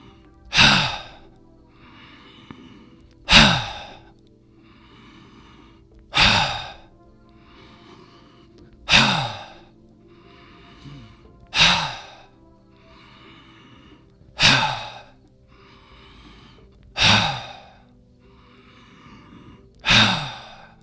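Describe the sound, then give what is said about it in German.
Forceful "ha" exhalations from a breathing exercise, eight sharp breathy bursts at an even, unhurried pace, each dropping off quickly into quiet breathing, with no talk between them. “Beim Einatmen dann wieder hochkommen, Beine gerade, Schultern runter, ein bisschen in den Knien einsinken und Ha. Ausatmen. Das machen wir jetzt 10-mal.”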